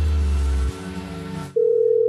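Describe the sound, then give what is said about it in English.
A telephone ringing tone with a regular, non-UK ring pattern: a steady mid-pitched tone starts partway through after a fainter, lower hum and holds evenly to the end. “How come they're ringing regularly instead of the UK ring?”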